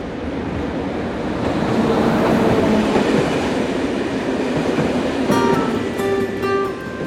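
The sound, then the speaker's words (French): A train rumbles at a railway station platform with a loud, steady roar of wheels and machinery. High sustained tones join in near the end and hold over the rumble. “On va se quitter sur le quai de la gare de Limoges.”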